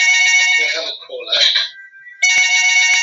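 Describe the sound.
Electronic telephone ringtone signalling an incoming call: a loud, high-pitched trilling ring sounds in two bursts with a brief break between them.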